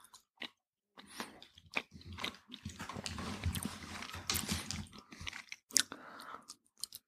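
Someone chews a piece of cheese, making faint, irregular, moist bites and soft crunchy mouth noises with short pauses between them.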